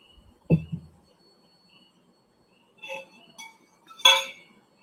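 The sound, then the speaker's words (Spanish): A drinking glass of water clinks as it is handled: a dull knock, then a few faint, sharp glassy clinks separated by near silence. “Yo me quedo tomando agüita en mi vaso de gambeta.”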